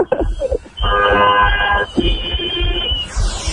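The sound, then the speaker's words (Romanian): Car horns honk at a street celebration at Eroilor, in two long, sustained, steady blasts of about a second each. Dense, loud background noise runs throughout. “Claxoane! Claxoane pentru Răzvan la eroilor! S-aude, s-aude!”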